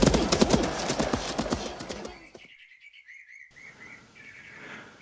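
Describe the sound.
Horse hooves clip-clop steadily as a rider urges a mare on at a brisk pace, many quick hoofbeats for about two seconds before they stop, leaving faint bird chirps.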